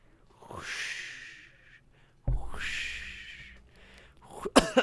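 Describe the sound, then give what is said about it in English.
Throat clearing and coughing: two long, raspy, hoarse hacking efforts separated by a brief pause, then a couple of short, sharp bursts at the end, with no voices. “Oh, sorry, I was just trying to get something out of my throat.”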